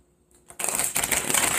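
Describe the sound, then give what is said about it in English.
Tarot cards being shuffled: a short quiet moment, then a quick, papery riffling rustle of cards that flutters on continuously until the end. “So I'm about to do a shuffle.”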